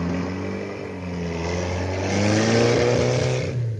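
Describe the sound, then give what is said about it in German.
A car engine drones as the car drives off through a gate and onto the road: a steady low hum that swells a little toward the end before easing slightly. “Wir sehen im Auto nach. Alle drei. Ditte, der Dr. Busbeck und ich. Wir warten darauf, dass der Maler sich noch einmal zu uns umdreht, wenn er durchs Tor fährt und auf die Straße nach Glyserup einbiegt.”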